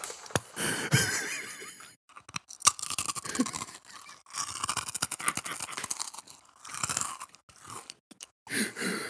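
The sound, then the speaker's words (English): Crunchy chewing of wasabi kakimochi rice crackers, with many crisp crunches in bursts separated by brief pauses, loud and close with no talking. “This is gonna sound really good on the mic. This is kakimoki. Wasabi kakimoki.”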